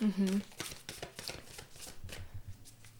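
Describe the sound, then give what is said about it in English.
A deck of oracle cards is shuffled, making quick, repeated papery riffles and soft slaps at an uneven rhythm. A voice is heard briefly at the start. “this is our weekly oracle card shuffle.”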